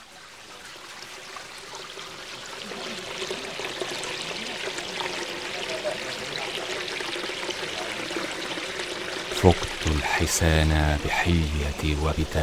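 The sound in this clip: River water flowing in a steady, continuous rush with no breaks, the sound growing slightly louder toward the end.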